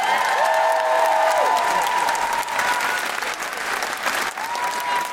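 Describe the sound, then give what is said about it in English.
Loud audience applause greets a female comedian at a live Amnesty International charity comedy show. The clapping is dense and sustained, dipping briefly midway before swelling again. “Put your hands together and give her a big guilty feminist.”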